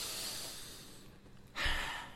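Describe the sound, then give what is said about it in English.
A slow, deep breath drawn in, a soft airy hiss that stays faint and steady before swelling louder near the end. “Just breathe it on in.”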